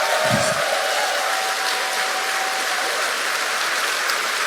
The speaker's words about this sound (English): Can I just get a massive round of applause for those folks?